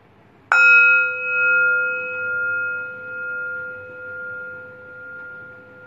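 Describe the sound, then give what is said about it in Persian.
A meditation bell is struck once, giving a clear bright ring that lingers for several seconds, its sustained tone pulsing gently as it slowly fades. “اجازه بدین فرکانس این زنگ افکار مزاحم از ذهنتون دور کنه.”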